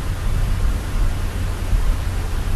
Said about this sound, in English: What you're hearing is the actual recording Deep Sound brought back from the Mariana Trench.